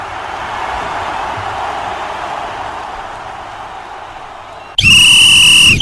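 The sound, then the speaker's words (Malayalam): A referee's whistle signals a football kick-off with one long, loud, shrill steady blast. It cuts in sharply after several seconds of continuous hissing noise. “റഫറിയുടെ whistle മുഴങ്ങിക്കഴിഞ്ഞിരിക്കുകയാണ്, പന്ത് ഉരുണ്ടു തുടങ്ങിയിരിക്കുകയാണ്.”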